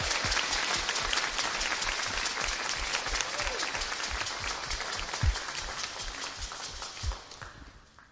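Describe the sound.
A church audience applauds as a preacher is welcomed up to speak. Sustained clapping runs throughout with a low, rhythmic thumping beneath it. A couple of louder knocks come late, and the applause thins out at the very end.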